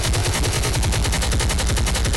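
Automatic gunfire from a Glock pistol fitted with a switch: a dense, unbroken stream of many loud, sharp shots fired in rapid succession for about two seconds, with no voices.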